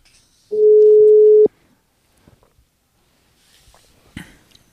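An outgoing telephone call rings once: a single steady mid-pitched tone lasting about a second, followed by quiet with a few faint clicks and rustles.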